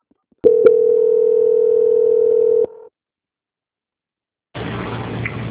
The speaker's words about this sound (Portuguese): que eu vou transferir a sua ligação para a finalização da auditoria, tá bom? Transferência.